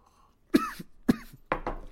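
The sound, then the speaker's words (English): A person has a coughing fit: a few sharp, harsh coughs in quick succession, with the last ones breaking up into rougher bursts. “Excuse me. Coughing fit.”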